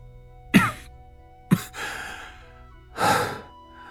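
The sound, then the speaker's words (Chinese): Low coughing from a badly injured man: three muffled bursts about a second apart. The later ones trail into breathy, rasping exhalations, and the last is the longest. “一味低低的咳嗽”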